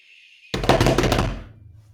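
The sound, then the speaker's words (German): A rapid flurry of loud drum hits rings out after a faint, steady high tone, the strikes running briefly before fading into a low tail. “Du musst noch immer eh trommeln.”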